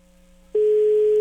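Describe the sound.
A telephone ringback tone plays while a call waits to be answered: after a faint steady hum, a loud, low, unbroken tone starts abruptly midway and holds to the end.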